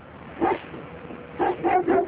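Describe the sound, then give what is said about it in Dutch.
A few soft barks and yips from search dogs trained to find human remains, one bark followed after a pause by a quick cluster of three, with no talking. “De honden zijn al wel getraind in het zoeken van menselijke resten, maar het blijft afwachten.”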